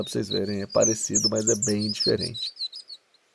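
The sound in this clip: High, thin chirps of the pula-pula warbler, a Brazilian bird of the family Parulidae, sound faintly beneath a person talking. A few brief notes continue alone at the end.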